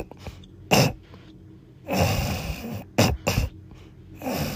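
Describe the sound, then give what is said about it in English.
A voice imitates a grandmother's snoring and breathing in her sleep: a few loud, raspy, snorting and throat-clearing bursts separated by quieter breathy pauses. “My grandpa used to snore like that too. Like, and my grandma sounds like that when she's sleeping.”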